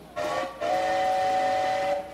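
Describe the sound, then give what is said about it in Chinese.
A train whistle sounds as a train is about to depart: one short blast, then a long, steady, loud blast held at a constant pitch. “哎，火车又要开了啦！”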